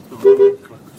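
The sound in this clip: A single short car horn toot, mid-pitched and somewhat muffled, lasting well under half a second over a low background rumble.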